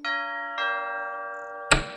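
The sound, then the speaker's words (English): A doorbell at a big gray house sounds two bright chime tones, each ringing out with a long, clear sustain, followed by a short, sharp burst of noise at the end. “rang the doorbell”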